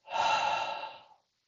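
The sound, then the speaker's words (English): A single slow breath, part of a calm exercise of breathing in through the nose and out through the mouth. It is a soft, airy rush lasting about a second, heard alone in quiet, then silence. “Breathe in slowly through your nose and out through your mouth.”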